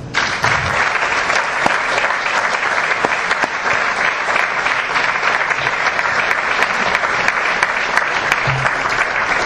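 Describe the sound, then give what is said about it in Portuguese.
A crowd gives strong applause at a swearing-in ceremony, with many hands clapping in a loud, dense, unbroken roar. It stays steady for nearly ten seconds with no voices over it. “eu peço um forte aplauso.”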